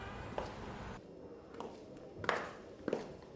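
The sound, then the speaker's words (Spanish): High heels striking the floor as a downstairs neighbour walks, heard as four faint, muffled taps spaced roughly evenly apart over a low background hiss. “¡No! ¡Es mi vecina de abajo caminando! ¡Tacones, no!”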